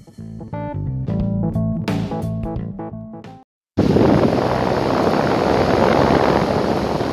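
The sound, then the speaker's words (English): Steady loud roar of a biplane engine and rushing wind in flight, heard as from the cockpit, starting abruptly after a short musical passage and continuing unbroken to the end. “Are we really doing this first segment from the cockpit of a biplane?”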